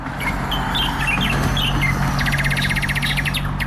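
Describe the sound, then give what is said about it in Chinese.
Small birds chirp in trees in a village in the early morning, with quick high twitters and a rapid repeated trill over a steady low background rumble. “清晨，小鸟在树上欢脱地练着嗓，小岗村迎来了新的一天。”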